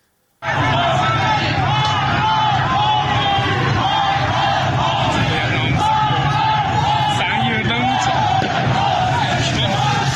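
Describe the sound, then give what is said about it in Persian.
Crowd of protesters chanting slogans against the country's leadership in a street in Izeh, Iran. The massed voices start abruptly after a brief silence and stay loud and continuous, shouting together throughout. “معترضان علیه رهبر جمهوری اسلامی و دیگر مقام‌های نظام شعار دادند. صدای ویدیویی از ایزه را می‌شنوید.”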